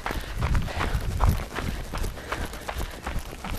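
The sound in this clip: Footsteps walking uphill during a workout, many soft steps in a steady, irregular patter, faint throughout with no clear talk.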